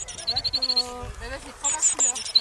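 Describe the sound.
European bee-eater calling: a few short, high, sharp chirps in quick runs, with lower tonal sounds underneath.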